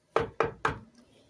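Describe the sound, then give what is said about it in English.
Three sharp, evenly spaced knocks on the door of a small cottage, loud and crisp, each fading quickly, with nothing else heard around them. “So they knocked on the door,”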